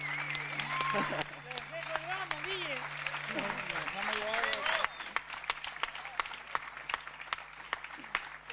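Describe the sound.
Applause breaks out as scattered, crisp hand claps over the second half, after voices and other sounds at the start. It is fairly quiet overall.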